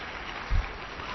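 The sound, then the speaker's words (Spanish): Applause for guests in a radio studio, a faint, steady patter of clapping from a small group that holds an even level throughout. “Marta, Nuria, Mónica, muchísimas gracias. De nada. ¿Les damos un aplauso?”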